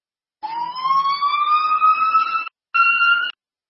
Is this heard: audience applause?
no